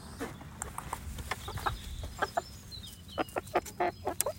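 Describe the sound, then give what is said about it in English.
Eight hens clucking together, with many short, irregular clucks and squawks overlapping at a fairly faint, steady level that grows a little busier toward the end. “the clucking of many hens. 8 to be precise.”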